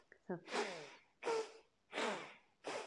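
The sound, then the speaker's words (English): Forceful, rapid breathing from a breathing exercise: four loud, hissing breath bursts in a steady rhythm, with a brief voiced sound just before the first. “So it's just forceful inhale, forceful exhale.”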